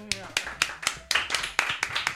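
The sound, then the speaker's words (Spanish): A small quiz-show audience claps in a sparse run of distinct, sharp claps at an uneven rhythm. The claps are fairly faint, and a voice comes through at the start. “Un poquito más de aplauso, que aquí nunca acierta nadie. ¡Bravo!”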